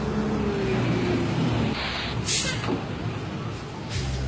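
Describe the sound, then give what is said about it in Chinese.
A city route bus pulls into a stop. A low engine drone fades after a moment, then come two short bursts of bright hiss, and the engine rumble returns near the end. “五路公交车马上就要进站了，请大家不觉排好队。”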